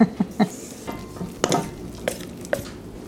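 Stirring a batter of milk, whole wheat flour and coconut, heard as a few irregular scraping strokes and light clinks of the utensil, with the first strokes sharpest and the later ones softer, and no voices.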